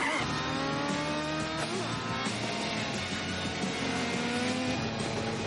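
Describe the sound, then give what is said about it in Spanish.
A car skids aggressively as it swings around on a road during a chase in the 2000 action film Mission: Impossible 2, with a continuous loud engine roar and a squealing tyre tone. “Ve un camión a lo ancho de la carretera y da la vuelta derrapando agresivamente.”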